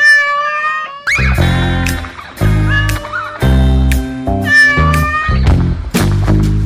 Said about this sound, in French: C'est un chat.